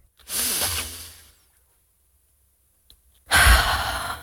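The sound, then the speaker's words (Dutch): A deep exhale, heard as two loud, airy breath sounds with a stretch of silence between them and no talk. “Niet vergeten uit te ademen.”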